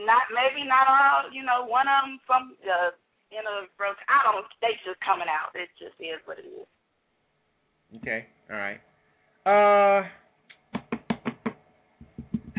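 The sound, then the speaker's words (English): Talking voices give way to several short, sharp knocks on something, tapped out in a quick, uneven series at the end. “What was that? You knocking on something?”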